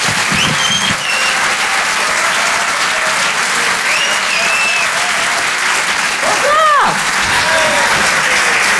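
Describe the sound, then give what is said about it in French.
Applause and cheering from a comedy club audience at a Paris theatre as a comedian is welcomed to the stage: dense, loud clapping runs the full length, with whoops and whistles rising above it. “Faites du bruit, s'il vous plaît, pour Mélodie Fontaine.”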